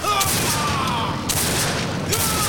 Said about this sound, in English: Then, Steve appears at a side entrance and opens fire. Billy leaps out of the trunk, both guns blazing.